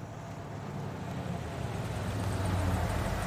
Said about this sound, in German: Ein Transporter fährt am Radgen Forschungslabor vor.